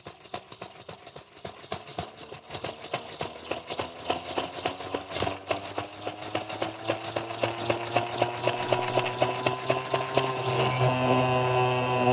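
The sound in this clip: An engine idles with a rapid, rhythmic pulsing, then revs up as its pitch climbs steadily and the sound grows louder toward the end.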